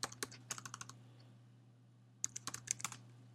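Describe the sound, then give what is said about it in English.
Someone types a command on a computer keyboard to compile a TypeScript file. Faint, quick clicking keystrokes come in two bursts with a quiet pause between them. “And then I'm going to say tsc demo.ts, because I want to compile that TypeScript file. And I hit enter.”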